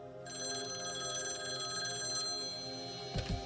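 A telephone rings as kidnappers call a family home, a steady, faint buzzing electronic trill that continues unbroken, followed by a couple of short knocks at the very end.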